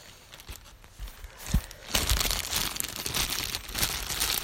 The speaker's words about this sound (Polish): Otwieramy folię. To mnóstwo folii jest.